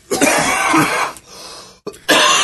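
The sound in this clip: Three men cough harshly, in coughing fits after smoking indica cannabis. Loud, rough bursts run for about a second, followed by quieter rasping, a brief cough, then another strong bout at the end, with no talk.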